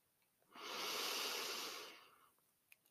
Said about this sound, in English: I would say that these work best with your clothes off, just so that you don't have any kind of constriction happening. And we're going to breathe in